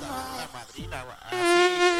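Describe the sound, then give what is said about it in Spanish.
A mosquito's whining buzz drones loudly and continuously, its pitch wavering and shifting as it hovers, then swelling stronger toward the end. “Ride sabe qué es lo que busca ese mosquito intenso. Busca tu calor, tu olor y cualquier pretexto para robarte el sueño.”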